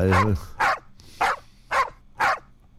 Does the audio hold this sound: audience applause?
no